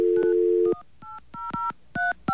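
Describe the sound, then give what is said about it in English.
Telephone keypad tones as a number is dialed: a steady dial tone gives way to several short two-pitch beeps in an uneven rhythm, fairly loud and with no talking. “Did I dial it wrong? I dialed 355.”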